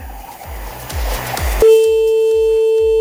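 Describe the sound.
A telephone call tone on the line: a steady, continuous mid-pitched tone starts partway through and holds to the end, over a thumping rhythmic beat and noisy background that run throughout.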